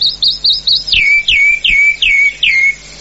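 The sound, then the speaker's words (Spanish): A calandria mockingbird sings loud, clear, high notes: a quick run of short chirps, then five whistled notes that each slur downward in a steady rhythm. “Todo está en el canto de la calandria, ¿eh? Todo. Escuchémosla.”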